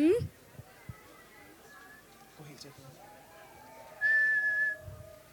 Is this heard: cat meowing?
no